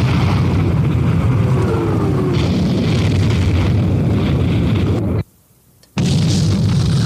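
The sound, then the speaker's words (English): Loud explosion of many helicopters and spaceships blown up at once, a dense, sustained booming roar that cuts to sudden silence for about half a second before the rumbling resumes. “So I make it easy for them. I explode them, all at once.”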